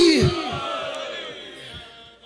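A crowd at a religious gathering answers the Naara-e-Haidari slogan with a loud shout in unison. The shout starts strong, falls in pitch and dies away into a softer, sustained crowd murmur.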